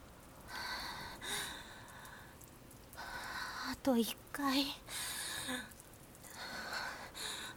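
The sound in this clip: Slow, deep breathing steadies the breath, with several long airy inhales and exhales. Soft voiced sighs and gasps break through in the middle, and there is no speech.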